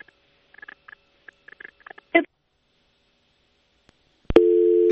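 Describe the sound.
Telephone tone after a dropped call: a few brief scattered electronic chirps, then silence, then a loud, steady, buzzy tone that starts abruptly and holds to the end.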